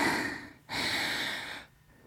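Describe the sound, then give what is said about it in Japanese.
Tearful sniffling from someone who has been crying: two long, wet, noisy breaths drawn in through the nose, then quieter breathing. “ごめんね、泣いちゃって。”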